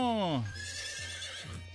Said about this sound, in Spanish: el Bigote Baby y su caballo Palomino